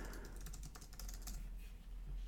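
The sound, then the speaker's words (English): Quiet typing on a computer keyboard, a quick run of soft, light keystroke clicks with no voices over it. “Got to pull this up. Oh, learn how to type”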